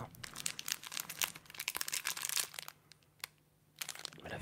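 Crinkling and tearing of a packet of stored food dated 2020 as it is opened: many sharp rustles and crackles in an irregular run, with a brief lull near the end before the crinkling resumes.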